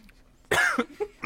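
A cough caused by dust caught in the throat: one sharp, loud cough followed by a few shorter, quieter throat bursts.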